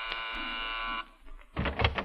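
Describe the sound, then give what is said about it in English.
A door buzzer rings with a steady, harmonically rich electric buzz lasting about a second, then cuts off, and a short burst of other rustling noise follows. “Now stand back so Jack don't see you. I'll ring the buzzer.”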